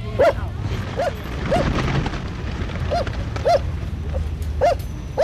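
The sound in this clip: A dog barks again and again in short, sharp, fairly evenly spaced yaps over a steady rushing background noise, with no voices present.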